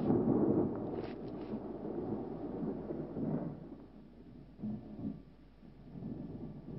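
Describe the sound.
Low, rolling thunder with wind in a horror film scene: a steady dark rumble that swells a few times, then eases back without fading out.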